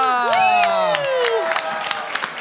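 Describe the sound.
Audience at a live show at the Bell House in Brooklyn cheering and applauding, with loud whoops that swoop up and down in pitch early on, followed by steady clapping with a few sharper claps standing out.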